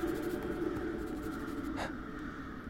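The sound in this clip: Pen scratching across paper: a soft, continuous rasp with fine irregular strokes over a steady low hum, faint throughout and without voices.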